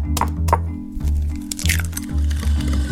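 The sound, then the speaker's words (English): Eggs cracked into butter and sugar for a baking mix: a couple of sharp shell cracks, then a wet squish as the contents drop in, all over a steady low drone. “You add some butter, and then some sugar, crack in some eggs.”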